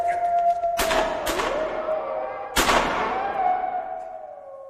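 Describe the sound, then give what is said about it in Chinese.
Gunshot sound effects in a radio drama: three sharp, loud bangs, each with a decaying tail, over a steady sustained tone. “我要开枪了，快闪开！”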